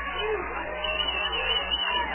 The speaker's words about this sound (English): You hear this crowd get up now, get behind the defense.